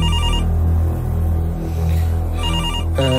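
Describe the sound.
A room telephone rings with a loud electronic ringtone, bright warbling bursts pulsing steadily through the whole clip, with a quick stepped rising figure right at the end.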